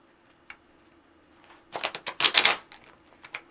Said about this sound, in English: You see how the cards pop out when they do that? It's okay. It's perfectly fine. You can also use the deck to shuffle in that manner.